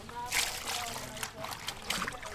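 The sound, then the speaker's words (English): Water sloshes and splashes as clothes are washed by hand in a wash tub in a shelter yard, with continuous, irregular slaps and trickles of water. “I'm just taking advantage of my time here to wash some clothes.”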